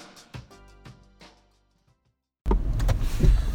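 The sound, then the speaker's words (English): A car being driven produces a steady, low rumbling road noise that starts abruptly after a few faint clicks and a stretch of near silence. “We're on the way back, driving to Low Fell where Mickey lives.”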